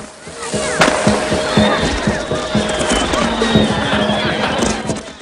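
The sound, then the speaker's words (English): Firecrackers and spinning Catherine wheels going off in a bustling Chinatown street, many sharp cracks and pops over a continuous fizzing, whistling hiss. “Cranston steps out of the doorway and strolls into Chinatown where Catherine wheels and firecrackers are going off.”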